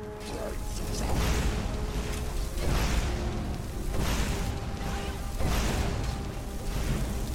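Fire bolt spells cast repeatedly in a fantasy role-playing video game, heard as several rhythmic whooshing, crackling bursts over a constant layer of game sound.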